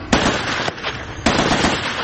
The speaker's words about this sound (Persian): سربازانی که پرچم اوکراین روی یونیفرم‌های پلنگی رنگشان نقش بسته در سنگرهای گلالود زانو زده و تیراندازی می‌کنند.